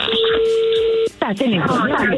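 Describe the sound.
A telephone number being dialed: one long, steady tone holds for about a second, then a short gap and a voice begins talking.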